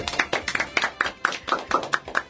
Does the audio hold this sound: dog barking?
no